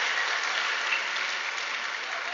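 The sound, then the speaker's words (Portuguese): Applause from an audience, a continuous, even hiss of many hands clapping that holds a steady level from start to finish, with no voices over it. “Palmas pra ela, glória a Deus.”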